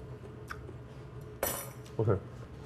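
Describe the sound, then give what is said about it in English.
Radish noodles being stirred with shio kombu in a bowl, with a few sharp utensil clinks and scrapes against the dish, the last two louder, over a low, steady background. “So now you're just stirring together the little radish noodles. Radish noodles. Shio kombu.”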